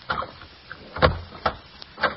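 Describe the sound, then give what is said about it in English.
A doorknob is turned and a door opened: a few faint clicks and rattles, with a duller knock near the middle, and no voices. “Knock on the door. Try the knob.”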